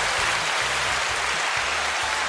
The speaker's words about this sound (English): That's the applause button. We're here recording with the new Zoom PodTrack P8, and it's got a bunch of little buttons here.